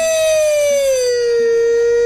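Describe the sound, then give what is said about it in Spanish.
A loud siren wail slides steadily downward in pitch for about two seconds, heard alone. “¡Una sirena!”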